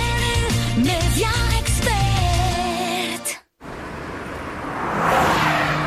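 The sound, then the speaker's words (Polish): A Honda HR-V car with a 1.5 Turbo engine: a loud engine whine with sweeping, shifting tones, then a sudden brief drop to silence. After that, a broad rushing roar swells and holds. “Nadjeżdżają święta wielkiej mocy, napędzane nową mocą, nowa Honda HR-V. Teraz z nowym silnikiem 1.5 Turbo.”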